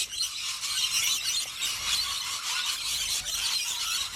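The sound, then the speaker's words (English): Rainbow lorikeets screech as a flock. Shrill, high-pitched squawks overlap into a dense, continuous chorus that stays loud and constant, with no talking. “I'm going to tell you, that is the sound of rainbow lorikeets.”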